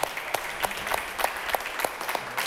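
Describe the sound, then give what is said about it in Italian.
Audience applause at a philosophy festival in Modena: steady, dense clapping from many hands, fairly loud and continuous throughout, with individual sharper claps popping out of the wash and no talking over it. “abbiamo subito due ospiti a cui chiedo di fare un bel applauso”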